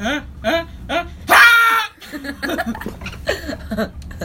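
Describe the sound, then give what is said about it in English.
A person sneezes once, a sharp, loud burst that follows a few short voiced breaths and is followed by more brief vocal sounds. “How to sneeze like a pro. Inhale, exhale, inhale, sneeze. Basically how you sneeze.”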